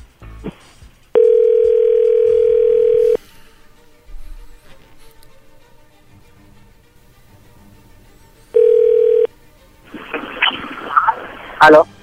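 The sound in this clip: An outgoing telephone call gives a loud, steady ringback tone lasting about two seconds, a long quiet gap, then a second, shorter ring. A voice is heard after the second ring.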